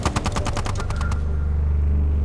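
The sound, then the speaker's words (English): Chain gun firing a fast, loud burst of many shots for about a second, then stopping, leaving a low steady rumble. “Give me the chain gun! Sir! Now! Fire back! Fire back!”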